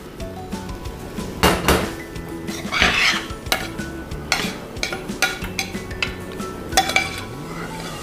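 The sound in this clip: Dishes clatter as a plate is slid aside and another is set down while plating a soy sauce dish in a kitchen, with many irregular clinks, knocks and rattles of crockery and cutlery.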